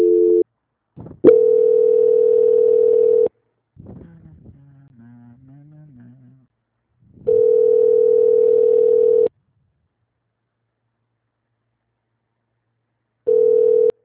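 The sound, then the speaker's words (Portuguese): A telephone ringback tone plays while a call is being transferred: steady, clean, mid-pitched tone pulses of about two seconds each, repeating with long silent gaps between them. “Transferir aqui para ela. Transferência.”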